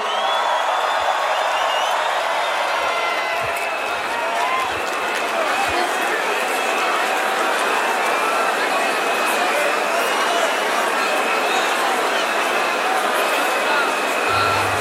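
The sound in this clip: A festival crowd cheers and roars as a set ends at a large outdoor music event. The dense, steady wash of noise holds at an even, loud level the whole way through.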